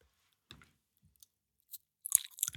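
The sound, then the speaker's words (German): Crunchy chewing and wet mouth smacking while eating a snack: a few faint, scattered bites and crackles, then a denser burst of crisp crunches at the end. “Gut, ja, gut, dann schmatzen wir jetzt noch 3 Minuten.”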